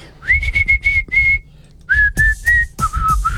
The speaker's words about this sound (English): I'm an avid whistler. Yeah. And my whistle's been off.